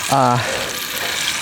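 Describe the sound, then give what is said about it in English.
Bacon frying in a very small pan over a campfire at a campsite, giving a steady, dense sizzle and crackle that runs for the whole clip at an even, fairly loud level. “I brought half of it with me because I love bacon. So I'm cooking that right now.”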